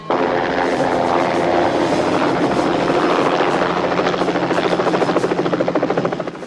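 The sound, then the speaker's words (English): Loud helicopter touching down at docks: a continuous heavy rotor and engine roar with a buzzing whine, the rhythmic blade thumping growing more distinct near the end. “At the docks, the helicopter touches down.”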